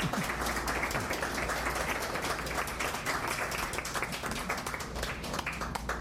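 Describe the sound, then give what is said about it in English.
Audience applause at a poetry reading: a steady, dense patter of many hands clapping, continuous throughout and fairly soft, with no talk over it. “As we bring up Meg Freer, let's give Michael another hand.”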